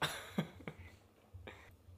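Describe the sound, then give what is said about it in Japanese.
A baby sneezes a few times: soft, short, breathy bursts with quiet pauses between them. “またくしゃみしてんねちょっとね”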